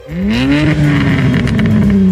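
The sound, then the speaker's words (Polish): A loud car with a modified exhaust in a city street drones with a deep, steady engine tone that rises slightly and then holds level, heard alone and without talk. “Będą dźwiękoradary i mandaty za zbyt głośne samochody w belgijskich miastach. Na celowniku są auta ze zmodyfikowanymi rurami wydechowymi.”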